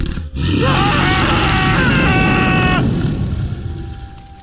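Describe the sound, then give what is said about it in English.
A dragon breathing fire: a loud, sustained roaring blast with rough, growling tones over a low rushing noise. It lasts about three seconds, then tails off quietly. “You breathed fire on King Harvey.”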